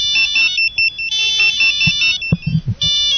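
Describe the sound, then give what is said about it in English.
A phone ringtone plays the La Cucaracha melody in bright, steady electronic tones, a quick repeating tune that runs throughout, with a few dull low thumps near the end. “Hey, want to hear my most space age one? Hold on, I got La Cucaracha.”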